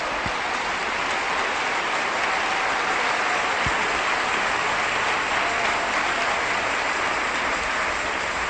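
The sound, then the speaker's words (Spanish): A church audience applauds during a sermon, a continuous, even wash of clapping that holds the same moderate level throughout with no voices on top. “Un aplauso para el Señor.”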